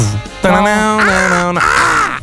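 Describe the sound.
A voice imitates a crow's caw with a few drawn-out, raspy, nasal calls that waver slightly in pitch. The calls are loud and close together, with no other sounds around them.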